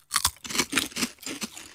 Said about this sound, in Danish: Jeg er stor fan af snackchips. Nu har vi bare hørt, der skulle være forskel på smagen. Lad os prøve. Jeg synes, vi skal smage dem fra den lille pose til at starte med.